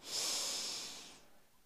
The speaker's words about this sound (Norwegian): Og så puster vi godt inn en gang til, og da samler du med deg tankene.